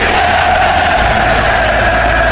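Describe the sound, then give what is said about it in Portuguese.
Football fans shouting together in a loud, sustained roar of many voices, a thick unbroken crowd noise with no pauses. “O grito da torcida.”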